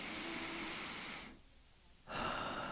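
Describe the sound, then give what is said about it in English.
A deep cleansing breath during a guided meditation: a long, airy inhale, then a brief quiet pause, then a full, breathy exhale. “Let's begin by taking a deep, cleansing breath together”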